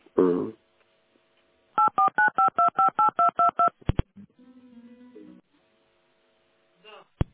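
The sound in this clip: Telephone keypad tones as a call is transferred: a quick, evenly spaced run of short beeps at shifting pitches, followed by a couple of clicks and a brief low tone, with a short burst of voice at the start.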